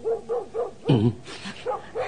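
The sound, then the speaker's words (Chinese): Dog barking in a quick run of short, mid-pitched barks, with one louder, deeper and longer bark near the middle, then a few more short barks; no voices. “狗吠得咁紧要”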